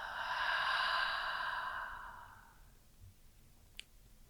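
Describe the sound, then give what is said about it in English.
A deep, slow breath during a guided relaxation practice, heard alone as one long, breathy rush of air that starts fairly loud and gradually fades away, with no talking. “Another one, inhale and exhale.”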